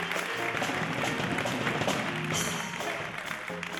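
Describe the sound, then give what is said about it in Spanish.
Applause from a concert audience in a theatre, greeting the drummer of a music school band: dense, steady clapping that fills the whole stretch at a fairly faint, even level. “Matías, un aplauso para él. Batería, el gran Matías.”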